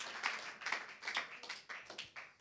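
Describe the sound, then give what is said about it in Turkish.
Congregation clapping in praise during a church service, a faint, steady run of quick rhythmic claps. “Come on now, give the Lord a big hand.”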